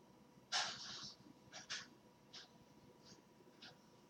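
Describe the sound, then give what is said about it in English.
A deep breath drawn in and then fully exhaled during a relaxation exercise. The airy breath is soft and faint, and a few quieter breathy puffs follow without any speech. “take a big deep breath in and exhale fully”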